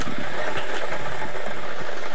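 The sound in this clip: A lottery draw machine spinning its numbered balls: a loud, steady whirring roar with dense rattling texture, continuous and unbroken throughout.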